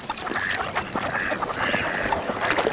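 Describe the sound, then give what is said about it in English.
Goslings, baby geese, leaving the nest make a busy chorus of many short, high-pitched peeps and chirps. The calls overlap and run without a break the whole time, fairly loud and steady, with no voices. “These baby geese, or goslings, are leaving the nest.”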